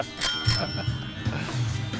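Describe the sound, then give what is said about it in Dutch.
A bell gives two quick, bright rings close together at the start, then fades into low background noise. “ja, mooie bel”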